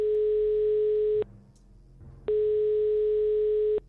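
Telephone ringback tone from an outgoing call being placed: two long, steady mid-pitched tones, each over a second, separated by a quiet gap, with no voices.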